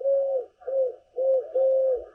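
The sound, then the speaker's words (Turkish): Dove cooing recorded in Istanbul: a series of soft, low hooting coos in a steady rhythm, four drawn-out phrases with brief gaps, clear and alone with no talk. “kumruyu da Orhan Gül İstanbul'da kaydettiler.”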